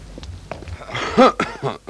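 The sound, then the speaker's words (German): A single voiced cough from a man passing a woman, short and fairly loud, rising briefly out of quiet background sound. “Und auf einmal, da muss ich husten.”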